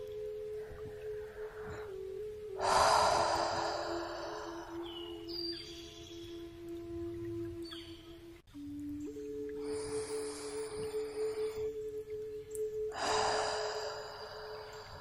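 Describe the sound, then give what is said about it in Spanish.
Slow, deep breaths drawn in through the nose and let out through the mouth, a few long, airy rushes rising over a soft, sustained musical drone. “Toma tres respiraciones profundas por la nariz y deja que el aire salga por la boca en forma de vaho.”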